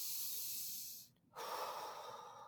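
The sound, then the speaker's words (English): A deep human breath, soft and airy, heard as two breathy rushes split by a short pause, the second fuller and louder. No talk. “I'm just going to take a deep breath.”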